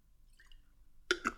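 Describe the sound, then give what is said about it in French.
Someone sipping water: after near silence, two short, wet, clicking gulps follow each other quickly, soft and close. “Je bois un petit coup d'eau pour pas reperdre ma voix bêtement.”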